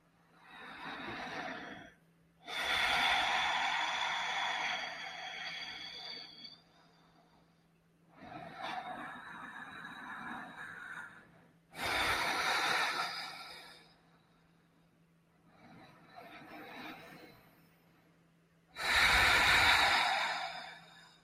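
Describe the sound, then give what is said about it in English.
Deep breaths drawn in and out through the nostrils, heard as a slow series of long, breathy rushes of a few seconds each, separated by short pauses, over a faint steady low hum. “breathing in through your nostrils and out through your nostrils, we're just going to try to elongate our breath in and out for as long as possible. So go ahead and start on your own time. We're just going to take 3 deep breaths.”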